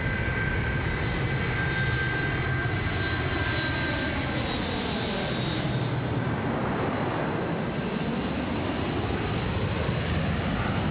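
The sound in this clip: Jet airliner engines run before takeoff, a steady, even roar with a thin high whine threaded through it, continuous for the whole stretch with no voices.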